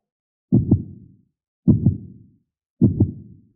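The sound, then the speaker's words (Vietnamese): A heartbeat sound effect gives three evenly spaced double thumps, each a deep lub-dub that quickly fades, with silence between the beats. The beats are low-pitched and clear. “trái tim của hắn đột nhiên trở nên mất kiểm soát, đập liên hồi, hơn nữa có khuynh hướng đập càng lúc càng nhanh.”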